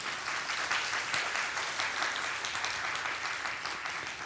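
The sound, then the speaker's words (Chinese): Sustained applause from a church audience during a worship service, a dense, steady patter of many clapping hands that holds at an even level for the whole stretch without any talk. “我哋俾掌声佢哋，更加俾更大嘅掌声我哋嘅神。”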